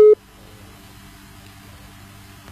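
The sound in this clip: A disconnected phone call gives one short, sharp electronic beep, then drops to a faint, steady line hiss.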